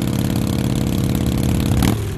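Harley motorcycle engine rumbles steadily during a ride, a loud, even, throbbing drone with a slight shift in tone near the end, and no talk.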